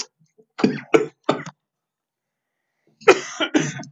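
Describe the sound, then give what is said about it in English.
Harsh coughing in two clusters: three quick coughs, a pause, then a tighter run of three. The coughs are dry and abrupt, with silence around them. “All right, we're all going to cough now.”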